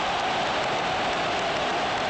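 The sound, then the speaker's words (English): Stadium crowd roaring at an international football match involving Australia: a loud, unbroken wall of cheering noise that holds steady through the brief moment. “And the crowd has gone wild.”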